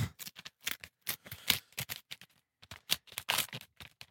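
An envelope is torn open, with a quiet series of short, crisp, papery rips and crackles in irregular bursts and brief pauses between them.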